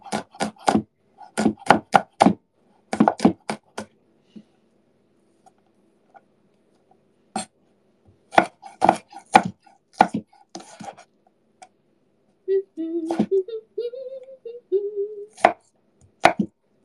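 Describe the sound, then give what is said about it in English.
A knife mincing fresh garlic, the blade in need of sharpening, makes many quick, crisp chopping taps in rapid bursts separated by short pauses. “More minced garlic never hurt anybody. I should sharpen this knife.”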